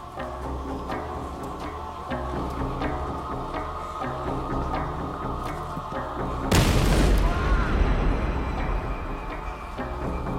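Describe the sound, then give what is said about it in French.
A bomb explodes in a university computer science department break room. A single sudden, loud blast hits about two-thirds of the way through, with a deep low boom and a ringing decay, over a continuous musical background. “L'explosion le blessa gravement.”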